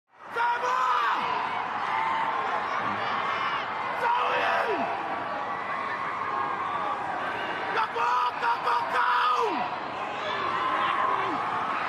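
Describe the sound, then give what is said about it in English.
Toa Samoa rugby league fans cheer at Eden Park during a match against the Kiwis, a sustained crowd roar with whoops and shouts that runs through the whole passage. “But the result didn't dampen the fanfare of fanatical Toa Samoa fans, who cheered on their team from beginning to end.”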